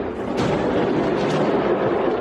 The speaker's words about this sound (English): A new video shows a fireworks factory exploding into a massive fireball in Malta. Take a look. This is the moment an explosion rocked a fireworks factory in Malta.